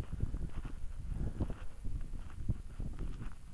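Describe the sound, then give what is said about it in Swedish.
Hoofbeats of two horses, one a tiny pony, walking outdoors in a cold northerly wind: soft, uneven thuds partly buried under steady wind rumble. “Ja, det är två hästar som går där.”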